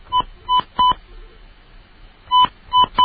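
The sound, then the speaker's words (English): Telephone dialing tones from a keypad as a number is dialed: three short, bright beeps in quick succession, a pause, then a few more evenly spaced beeps, each tone sounding alone without voices. “I dialed the wrong number.”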